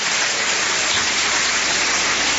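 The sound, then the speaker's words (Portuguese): A church audience claps during a service. The clapping is dense and continuous, a loud, even wash of sound with no pauses. “Quem tem essa paz pode bater palmas e dar glórias a Deus.”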